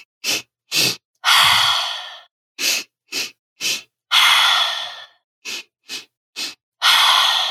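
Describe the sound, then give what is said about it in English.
Paced breathing runs in a steady cycle: quick, sharp sniffed inhales in sets of three, each set followed by one longer, loud, breathy exhale. The pattern repeats rhythmically about three times, with no talking. “Inhale three. Exhale one. You can start to pace and pick that up as you'd like.”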